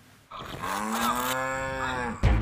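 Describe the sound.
A cow moos in a grass pasture that is drying out after rain has stopped, one long, steady, low lowing call lasting nearly two seconds, followed by a short low thump.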